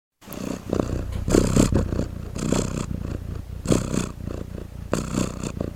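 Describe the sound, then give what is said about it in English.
A cat purring, a low rumbling drone that swells and fades in a slow, regular rhythm with each breath, loud and steady with nothing else heard. “the sound you just heard was a recording of a purring cat”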